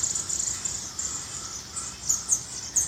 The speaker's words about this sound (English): Looks like the birds were called here today too. There's a whole flock of warblers and chickadees